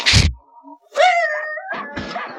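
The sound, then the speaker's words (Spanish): A dog advancing threateningly: a loud rough burst, then a drawn-out whining, howl-like cry with wavering pitch, followed by a few more short yelping sounds. “El primer perro se adelanta amenazador.”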